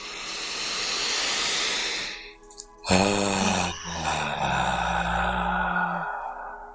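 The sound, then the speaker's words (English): A deep breathy exhale during a guided breathwork exercise, a rushing airy sigh of about two seconds. A brief pause follows, then a sustained, vibrating voiced hum with rich harmonics that holds steady for about three seconds before fading. “Very deep, and then exhale and make the sound that vibrates in your body.”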